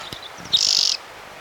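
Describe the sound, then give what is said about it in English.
A single bird sings a short, high, trilled phrase under a second long, bright and clear over faint background sound. A few weaker chirps come just before it. “One bird, two songs.”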